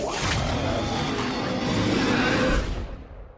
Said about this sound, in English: That was the trailer for Hellboy. It is a fantasy superhero movie with cosmic horror elements, directed by Guillermo del Toro, and it is based on the Hellboy comics created by Mike Mignola